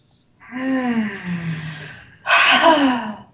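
A deep breath taken during a guided healing meditation: a long, voiced, sighing exhale that falls in pitch, then a second, louder, breathier burst.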